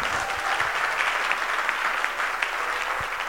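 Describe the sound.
A church audience applauds in praise of God. The clapping is steady and dense, a continuous even patter of hands with a few sharper claps standing out.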